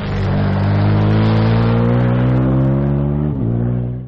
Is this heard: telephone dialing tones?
no